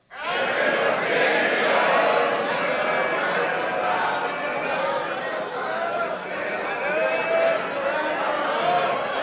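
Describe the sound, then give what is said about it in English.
A live audience sings its own version of a show's theme song together, a loud, dense mass of overlapping voices that keeps going steadily without a pause. “You guys sing your own theme song. So let's hear it from the audience. Your interpretation of the second opinions theme.”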